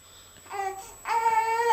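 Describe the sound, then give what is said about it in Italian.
An infant crying from hunger, with two drawn-out wailing cries. The second cry is louder, higher and longer, with a steady tone. “È questo il pianto della fame.”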